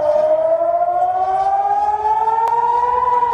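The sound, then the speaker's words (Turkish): An air raid siren wails in Haifa during an incoming missile attack. It is a loud, continuous tone that climbs slowly and steadily in pitch throughout, with one faint click partway through. “Hayfa'da sirenler çaldı.”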